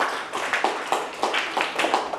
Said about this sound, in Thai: ปรบมือให้ตนเอง